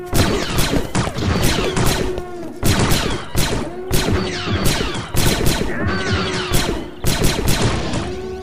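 Blaster fire rattles through a firefight in loud, dense volleys. Rapid sharp bursts overlap with crashes and thuds and keep going without a break.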